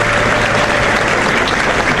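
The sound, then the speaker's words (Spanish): A full theatre audience gives unanimous applause at a concert, dense, even clapping that stays loud and steady throughout with no single voices standing out. “Aplauso unánime. Teatro lleno”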